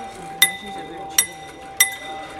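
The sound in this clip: Tuned tube chimes, pitched to a chromatic scale, are struck three times, each hit a bright metallic ring that sustains high tones, over a faint steady lower hum.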